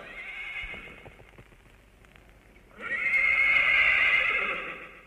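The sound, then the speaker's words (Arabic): A horse whinnies twice: a softer neigh that fades out, then a louder, longer, high-pitched whinny, with light hoof clops in between. “الى جزيرة الدخان طير يا حصان طيران”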